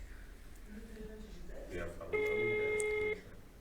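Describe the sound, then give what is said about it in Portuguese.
A telephone rings during a call as one steady, clear ring tone lasting about a second, following faint murmuring talk. “Senhor, estamos ligando. Alô?”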